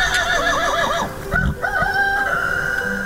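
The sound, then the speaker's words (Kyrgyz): A horse from a herd grazing on a high mountain pasture whinnies twice, each call loud, wavering and quavering, the first longer than the second, with a steady tone carrying on afterward. “Чайыттай ачык күнкү теребелде үйүр жылкы жай оттойт.”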